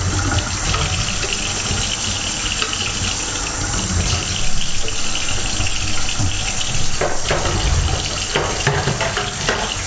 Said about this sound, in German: Den Deckel noch abspülen.